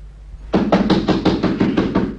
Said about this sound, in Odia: ହେଇ ସେ ବତୀ ଖୁଣ୍ଟ ପାଖ ହଳଦିଆ ଏକମଲା କୋଠାଟା, ଦରଜା ଖଟଖଟ କଲେ ଜବାବ ମିଳିବ ଭିତରୁ।